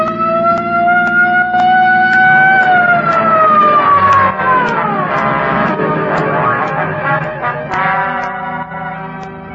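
A police patrol car siren wails during a chase, loud and continuous for nearly ten seconds, its pitch sliding up, sweeping down, then climbing again over a rough engine-like undertone.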